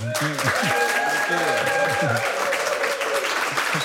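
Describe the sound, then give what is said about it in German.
An audience warmly applauds a musician from the Netherlands, introduced before he plays songs from his EPs. Steady, dense clapping holds throughout, with vocal cheers and voices rising over it in the first couple of seconds. “Bitte einen herzlichen Applaus”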